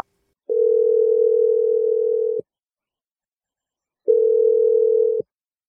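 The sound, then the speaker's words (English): A telephone dial tone sounds while a number is dialed: a steady single-pitch hum in two bursts, a long one and then a shorter one after a silent pause, with no voices. “I'm going to dial her number right now.”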